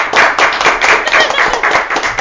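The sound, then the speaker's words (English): Applause from a small studio group: dense, steady clapping that stays loud and even throughout, with no clear break. “We'll just applaud him.”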